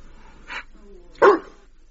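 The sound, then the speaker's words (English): An Irish wolfhound gives two separate barks against a quiet background, and the second bark is clearly louder and fuller than the first. “As you can see, Harry's an Irish wolfhound. He's Lisa's dog.”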